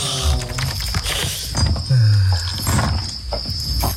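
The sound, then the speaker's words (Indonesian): A padlock is fastened on a door with metallic clanks, rattles and ratcheting clicks of uneven loudness, including one heavier thud partway through. “kok udah digembok sih pintunya? Saya kan baru mau keluar.”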